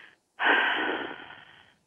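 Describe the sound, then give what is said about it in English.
A single long exhale through the mouth during a guided relaxation breathing exercise, a soft airy rush that starts abruptly, holds steady, then fades out gradually, alone without talk. “allow that air that you've taken in to follow its natural track back out again. Breathe it out through your mouth.”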